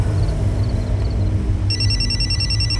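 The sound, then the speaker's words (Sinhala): Mobile phone ringtone, a bright electronic warble that starts partway through and keeps going over a loud, steady, rumbling background noise. “සූර්යභානුයි යශෝදයි hospital එකේ ඉඳන් hotel එකට එන ගමන් හිමන්සගේ phone එක රින් වෙනවා.”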